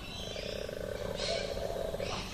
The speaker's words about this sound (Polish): A czy ten miś koala, który rzeczywiście wygląda jak przytulanka, wydaje jakieś odgłosy? Troszkę sobie tak mruczy,